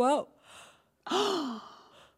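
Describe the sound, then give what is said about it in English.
A vocal yawn: a short voiced breath, then a quiet pause, then a long drawn-out yawning sound whose pitch rises and then slowly falls before trailing off. “I'm yawning.”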